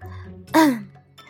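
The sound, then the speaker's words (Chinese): A single brief throat clearing, a short voiced rasp that slides downward in pitch, moderately loud, set between quiet stretches. “白浅咳了声，续道：”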